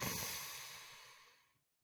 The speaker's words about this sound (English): Okay, ready? Take a deep breath in.